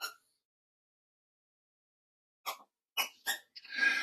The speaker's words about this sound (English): Yes, that is a squeaky toy.